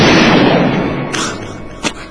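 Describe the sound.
A loud gunshot blast whose broad boom fills the opening and fades over about a second, followed by a couple of smaller thumps.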